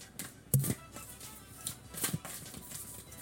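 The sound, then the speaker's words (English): Three cards pulled from a deck, heard as a few faint, soft papery snaps and rustles with quiet gaps between them. “We're going to pull three cards. So a little ASMR for those who like that.”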